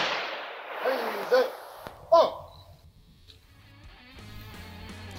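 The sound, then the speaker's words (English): A ceremonial rifle volley salute honoring a veteran: a few sharp cracks ring out among shouted commands, followed by quieter sustained tones. “we honor her service. Ready. Hey. Fire. Ready. Hey. Fire. Ready. Hey. Fire.”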